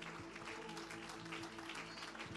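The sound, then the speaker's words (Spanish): Applause from a church audience at a celebration service: a dense, even wash of clapping that carries on throughout at a fairly low level. “Gloria a Dios, aleluya, fuerte ese aplauso.”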